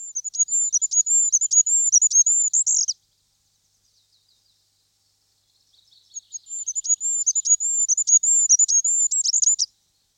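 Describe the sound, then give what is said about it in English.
Goldcrest singing from the top of a conifer: very high, thin song in two fast series of flourishes, separated by a few seconds of silence. “Goldcrests give the highest song of all in a series of flourishes, generally from the top of a conifer.”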